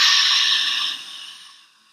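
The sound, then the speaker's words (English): A deep exhale during a guided breathing exercise. It is a long, airy rush of breath that starts strong and fades away over about two seconds, alone with no talking. “Exhale all that old air out.”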